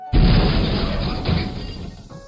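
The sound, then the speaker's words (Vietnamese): A huge, earth-shaking explosion as a giant ball of light bursts in the air: a sudden loud, broad blast that rumbles on and slowly fades over about two seconds. “Một tiếng nổ kinh thiên động địa, quang cầu to lớn rốt cuộc cũng nổ tung trong không trung”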